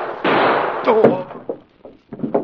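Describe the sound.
Gunshot in a Green Hornet radio drama: one sharp, loud blast with a lingering tail, followed by a voice and a few quieter bursts.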